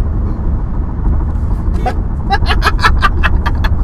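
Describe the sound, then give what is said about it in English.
Steady low road rumble inside a car on a bad, bumpy road, joined in the second half by a quick run of sharp rattling knocks and clatters as the car bounces over the rough surface. “Oh, that was some shit road. It's fucking bouncing the wheel and everything.”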